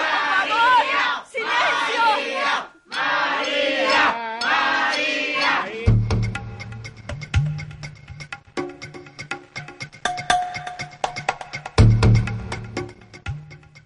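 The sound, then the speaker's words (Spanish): An enraged audience's uproar after a show is cancelled: loud agitated shouting comes first, then a chaotic jumble of yelling and clattering noise in uneven bursts. “Y como finalmente el enardecido público no se calmaba, fue necesaria la intervención de las fuerzas del orden para desalojar el lugar.”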